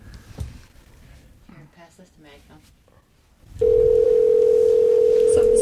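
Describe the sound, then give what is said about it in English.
A loud, steady telephone line tone fills the end of a prank phone call. It starts abruptly after a few seconds of talk and holds one unbroken pitch to the end. “Let's keep calling until he answers.”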